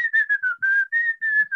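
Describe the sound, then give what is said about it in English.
Cheerful whistling, a quick melodic run of short clear notes at a fairly steady high pitch, heard alone. “It just sounds like cheerful whistling, maybe.”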